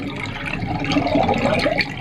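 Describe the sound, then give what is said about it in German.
Water gurgles and sloshes as a cylindrical, silvery metal hydrophone is lowered on a thick cable into the water, a continuous, fairly loud liquid churning with no voices. “Eine Mitarbeiterin lässt an einem dicken Kabel ein zylinderförmiges, silbriges Etwas ins Wasser.”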